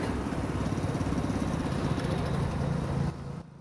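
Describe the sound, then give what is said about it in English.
A riding lawn mower's engine drones steadily as it races down a grassy slope, then drops in level near the end as the machine halts. “Racing down a grassy slope, he brings the mower to a halt as the departing tractor disappears round a bend.”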